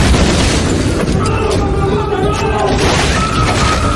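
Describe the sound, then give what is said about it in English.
Fireworks explosions: a dense, continuous roar of booms and crashes fills the whole stretch, loud and unbroken, with no quiet gaps between blasts. “How's that for fireworks?”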